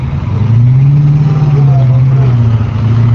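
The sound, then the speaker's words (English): Military tanks driving on a practice field at an army base in Texas, a loud, steady low engine rumble with a droning deep hum that holds throughout. “a group of about 20 soldiers are testing their skills driving tanks.”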